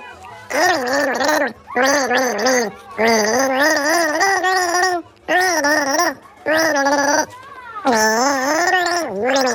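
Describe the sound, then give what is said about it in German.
A voice gargles the children's song Hänschen klein with a mouthful of water, the bubbling, warbling tone tracing the melody in several loud phrases separated by short breaths. “Du nimmst einen Schluck Wasser in den Mund, legst den Kopf in den Nacken und versuchst, ein bekanntes Lied zu gurgeln.”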